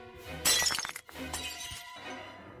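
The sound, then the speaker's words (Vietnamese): A ceramic cup shatters after being thrown and striking a man's head during a drunken brawl in a courtyard. A sharp, bright crash gives way to scattered tinkling fragments, followed by quieter rattling. “một cái chén bay đánh vồ thẳng vào đầu của thầy, vỡ tan tành”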